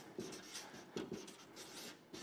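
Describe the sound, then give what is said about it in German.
Faint handwriting strokes: a few soft, scratchy rubs of a pen or marker moving across a writing surface, quiet and without talk. “Oh. Heute schreibe ich nicht so schön.”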